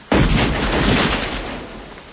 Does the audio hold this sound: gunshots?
yes